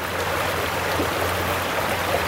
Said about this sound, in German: Es ist letztendlich nur ein großes Rohr, aus dem ja, bis zu 500 Liter warmes Wasser die Sekunde rausläuft.